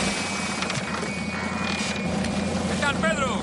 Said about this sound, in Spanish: Piloto espera a la lancha en cubierta y saluda con la mano. La lancha se para junto al Buenaventura.